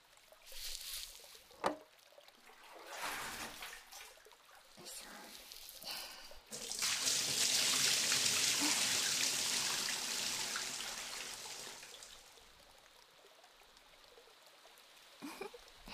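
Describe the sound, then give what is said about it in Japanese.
Hot water rinsing from a spray: a steady hissing rush that starts abruptly, runs for about five seconds, then gradually fades. Softer rustles and a few small knocks come before it. “せめてお湯で洗い流そう。”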